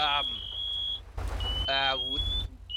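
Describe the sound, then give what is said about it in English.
A firefighter's PASS alarm beeps in a video game as a long, steady, high-pitched electronic tone, followed by a second sustained tone and a brief third one. A voice is briefly heard over it. “turn your pass alarm off”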